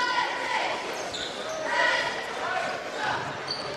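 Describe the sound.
Basketball dribbling during a high school boys' game between Columbia Central and Marshall County, with repeated bounces mixed into steady crowd noise while a commentator talks over it.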